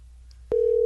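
Telephone line tone after dialing a number: a steady, single-pitch electronic tone that begins abruptly midway after near silence and holds unchanged to the end.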